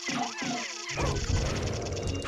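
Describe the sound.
In a video game, a few heavy crashing impacts land as a rock is struck, set against dense, loud game sound that runs on without a break.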